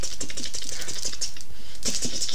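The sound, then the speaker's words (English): Fingers tap rapidly as if typing on a keyboard, a dense, continuous run of quick, crisp clicks with no pause. “my fingers would be tapping like,”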